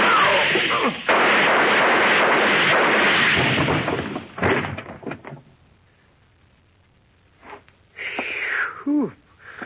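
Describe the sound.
Gunshots from a gun pressed up close to muffle it: a long, loud roaring blast, then a few sharp thuds, a quiet gap, and a couple more heavy bursts.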